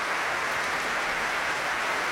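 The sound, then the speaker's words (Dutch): Audience applause for Ensemble Correspondance after an encore of early vocal music. The clapping is a dense, even, hissing patter, moderately loud and steady, with no voices. “Opnieuw groot applaus voor dit muziekgezelschap.”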